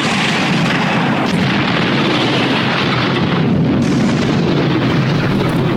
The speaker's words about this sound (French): Bon, je lâche les bombes, hein.